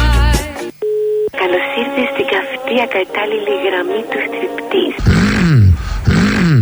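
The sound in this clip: A telephone call tone sounds as a single short, steady beep, followed by talking voices and other busy sounds.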